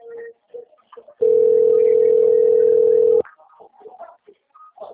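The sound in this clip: A telephone dial tone after a dropped call: a single steady mid-pitched tone holding for about two seconds, loud and unbroken, set between brief faint scattered sounds before and after.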